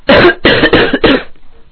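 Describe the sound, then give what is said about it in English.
Harsh coughing from a person right into an MXL microphone, a rapid run of several loud, rough coughs in close succession, then near silence. “I just coughed, like so.”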